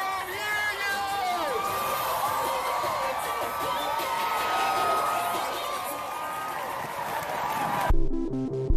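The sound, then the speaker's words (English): Crowd cheering at Chicago's Pride Parade celebrating the city's LGBTQ communities, with whoops, shouts and shrill whistles over a steady, loud roar of many voices. “Every year, hundreds of thousands of people take to the streets of Chicago to celebrate our city's LGBTQ communities. It sounds something like this.”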